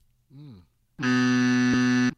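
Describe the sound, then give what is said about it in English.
A quiz-game buzzer blares one long, loud, steady tone for about a second, after a brief voiced sound and a short gap. “I didn't need the buzzer”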